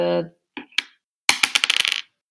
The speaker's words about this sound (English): I rolled the exact same numbers on my dice twice.